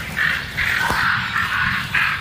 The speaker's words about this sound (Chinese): 周围响起豆鸦警觉的叫声，她在提醒林间动物们警惕这种可怕的捕食者。